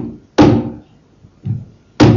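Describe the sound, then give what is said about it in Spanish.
A heavy coffin lid is put back in place with three dull, weighty thuds. The first and last are loud and sharp, and the middle one is softer, with quiet pauses between them. “Volvimos la tapa a su sitio.”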